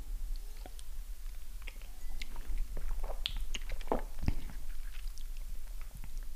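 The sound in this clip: Someone tastes a sip of dry wine with wet mouth sounds, lip smacks and many small clicks scattered irregularly over a low background hiss.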